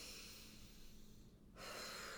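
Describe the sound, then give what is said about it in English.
A deep breath drawn in through the nose, then after a brief pause a fuller, airier exhale out through the mouth; quiet and breathy, with no talking. “I take a deep breath in through my nose”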